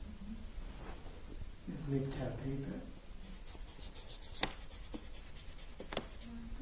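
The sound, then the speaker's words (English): Marker tip scratching across paper in a few rough strokes, with a heavier stretch of writing in the middle and sharp ticks near the end, moderately loud against a steady background hiss. “The marker on the paper.”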